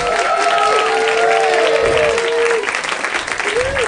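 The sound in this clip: Live audience applauding at the UCB Theater: dense, steady clapping with crowd noise and rising vocal whoops, holding loud throughout and thinning slightly near the end.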